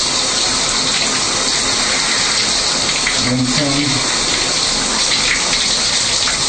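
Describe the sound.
Water running while hair is rinsed, a loud, steady, unbroken hissing gush with a brief murmur of voice under it midway.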